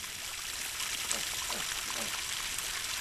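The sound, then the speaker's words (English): Water runs into a mud pit for piglets and sows at Cornerstone Farm in Tasmania's Tamar Valley, with a steady hissing, splashing pour that continues throughout. “Yeah, I'm just filling up the mud pit for the piglets and the sows.”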